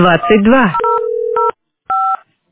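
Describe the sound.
Telephone keypad tones dial an extension on a billing centre's automated phone line: a few steady electronic beeps in two short bursts, following a brief stretch of speech at the start.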